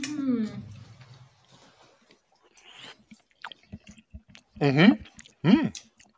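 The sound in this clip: Someone chews and tastes a dish with a crust on the bottom, making a few faint clicks and smacks that sit between short voiced murmurs, some of them louder.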